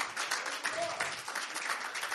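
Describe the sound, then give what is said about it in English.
A church audience gives a faint round of clapping for the Lord. The clapping forms a soft, fluttering patter that rises and dips slightly in level. “Give the Lord a big clap.”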